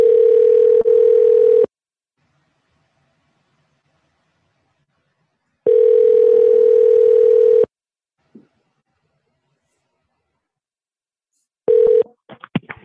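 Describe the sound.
Telephone tone on a phone line: two long, steady buzzing tones of about two seconds each, separated by several seconds of silence, then a third tone begins near the end with a few short clicks.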